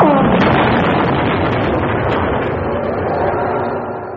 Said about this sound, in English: The computer bank is absorbing a hell of a lot of energy. I think it's about to blow.